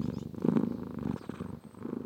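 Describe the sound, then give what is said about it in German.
A cat purring while scratched behind the ear on an alpine pasture produces a soft, low rumbling purr in continuous rhythmic pulses. “während sie eine Katze hinterm Ohr krault”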